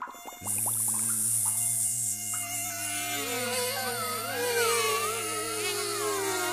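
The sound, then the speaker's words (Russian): Giant mosquitoes flying and buzzing: a loud, continuous, wavering whine that sets in abruptly and holds for several seconds, its high pitch drifting up and down as the swarm hovers, with no voices. “видит, летят комары громадные.”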